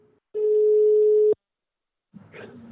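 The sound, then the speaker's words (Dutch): A telephone ringing tone sounds while a call is placed: a brief blip, then one steady, mid-pitched beep lasting about a second, followed by silence. “Dus het wordt nu tijd om te gaan bellen met Jaap Bakker van Welkom Energie.”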